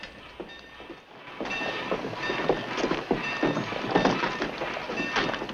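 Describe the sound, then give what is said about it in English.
Rumbling train pulling into a station, a rolling rattle with scattered thuds and clanks that grows louder after a brief quieter start and stays busy to the end, with no voices. “Arriving in Bismarck, Kern helps Josephine down off the train.”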